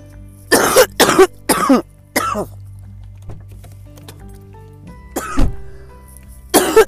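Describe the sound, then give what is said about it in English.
A person coughs in a fit: three quick, harsh coughs, a weaker one, then a pause before a few more rough coughs follow. “And coughing is healthy for anybody listening to this show and feeling a bit creeped out. Coughing is our body's way of releasing the mucus”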